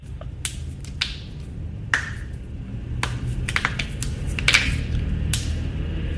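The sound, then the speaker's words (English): A person cracking their knuckles, a series of sharp, dry pops, several in an irregular rhythm, each brief and crisp over a faint steady hiss. “What's that person doing? Cracking their knuckles.”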